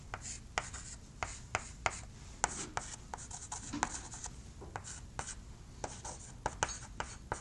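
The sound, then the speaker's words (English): A free body diagram is drawn by hand: many quick scratching and tapping strokes of a pen on a surface, in an uneven rhythm, fairly quiet throughout. “I should still draw a free body diagram. And I'll do that quickly. Save us a minute.”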